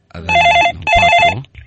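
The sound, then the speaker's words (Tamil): A telephone rings with an incoming call: two loud, warbling electronic ring bursts separated by a brief gap, heard alone. “இங்க ஒரு அழைப்பு வந்துருச்சு.”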